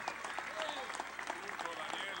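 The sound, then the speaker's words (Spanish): Faint audience applause during a political speech as the crowd cheers for composers, a soft, continuous patter of clapping with voices mixed in. “Pido un aplauso especial a todos”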